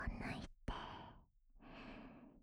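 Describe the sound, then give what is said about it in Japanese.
Gentle breathy blowing into the ear comes as three soft, airy puffs of breath, each fading out, with short silent gaps between them. “深いところまでちゃんとふうふうしてあげますね。”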